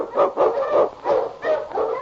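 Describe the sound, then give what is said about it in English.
A husky sled dog barks, several loud, throaty woofs in an uneven rhythm, with short gaps between some of them. “Thunderdog King, swiftest and strongest of Eskimo League dogs, blazes the trail through storm and snow for Sergeant Preston as he meets the Challenge of the Yukon.”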